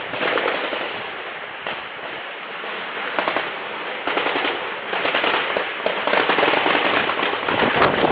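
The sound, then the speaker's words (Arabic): Heavy shelling and gunfire in the city of Inkhil: a dense, loud barrage of many sharp cracking bursts and rumbling blasts over continuous noise, sustained throughout with no talk. “قصف عنيف في مدينة إنخل.”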